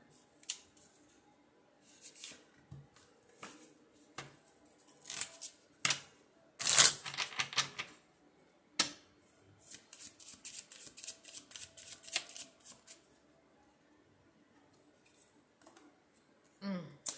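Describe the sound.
Someone handles a deck of love cards. There are scattered soft clicks and rustles, a denser run of crisp snapping flicks in the middle, and quiet pauses between bursts.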